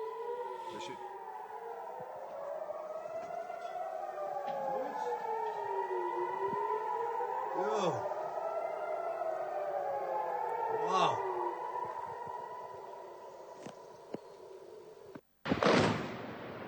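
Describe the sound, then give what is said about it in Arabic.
Air raid sirens wailing at Ras Naqoura during shelling: several sirens overlap, each rising and falling in long slow sweeps, followed near the end by one sudden, loud, broad burst. “هذه الصور التي وردتنا قبل قليل من رأس الناقورة التي تسمع فيها صفارات الإنذار وأثار القصف”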